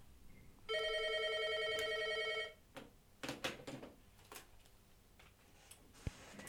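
A telephone rings for an incoming call: a faint electronic ring buzzing steadily for nearly two seconds and then stopping, followed by a few scattered clicks and knocks.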